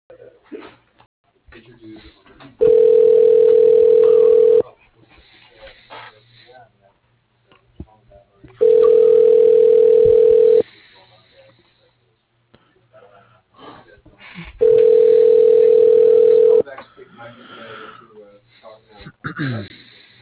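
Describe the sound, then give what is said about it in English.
A telephone rings while a call is forwarded to a voicemail system. Three loud, steady, buzzing rings, each about two seconds long, are separated by pauses with talking in between. “Your call is being forwarded to a ShoreTel voicemail system.”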